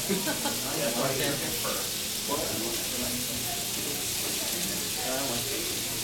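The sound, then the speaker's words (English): Bacon sizzles and crackles in a pan at a convention cooking panel, a continuous bright hiss with small pops, while faint voices murmur underneath throughout. “That's the thing about cooking bacon, is when it shrinks, you get space for more bacon.”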